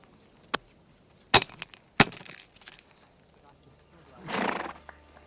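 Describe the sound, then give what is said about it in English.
A cavalry horse is ridden and urged from a trot into a canter. A few sharp, sparse hoof strikes ring out, followed near the end by a longer, breathy burst from the horse. “So we're going to ride on now. shorten up the reins, break into a trot, finally into a canter, go into the guard position.”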